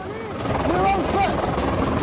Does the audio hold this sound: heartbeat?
no

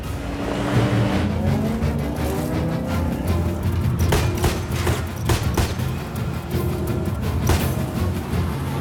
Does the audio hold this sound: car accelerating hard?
yes

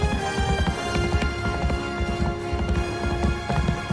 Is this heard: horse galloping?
yes

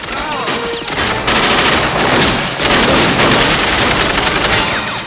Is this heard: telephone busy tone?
no

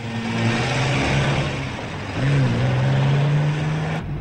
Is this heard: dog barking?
no

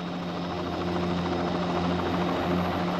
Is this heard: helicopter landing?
yes

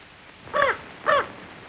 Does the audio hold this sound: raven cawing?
yes

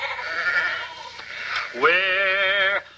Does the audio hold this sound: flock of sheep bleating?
yes

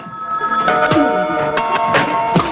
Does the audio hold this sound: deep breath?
no

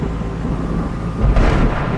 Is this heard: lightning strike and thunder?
yes

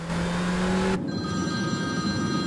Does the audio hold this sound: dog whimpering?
no

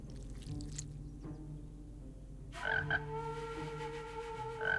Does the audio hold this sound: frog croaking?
yes

